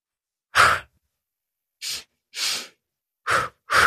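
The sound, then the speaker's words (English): Pulse breath, two sharp inhales through the nose and two exhales out through the mouth, heard as five quick, breathy bursts separated by silence, with no talking. “take two inhales into the nose and two exhales out through the mouth. We call this, in the style of breath work that I do, we call this the pulse breath. So it sounds like,”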